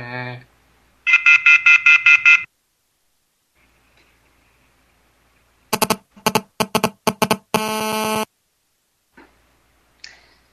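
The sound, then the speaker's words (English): Cell phone signal interference buzzing: a loud run of rapid pulsed electronic buzzes, then silence, then a string of sharp ticking bursts and a short steady buzz, followed by a faint last blip. “That's a very poisonous cell phone signal I hear there. That signal is poison.”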